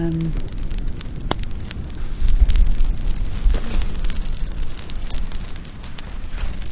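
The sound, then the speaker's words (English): A wood campfire burns on a beach at night, with many sharp crackles and pops over a steady hiss and a low rumble. “And I'm currently standing by a gorgeous fire on the beach with the almost full moon shining at me.”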